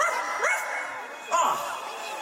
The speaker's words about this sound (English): Where is that dog?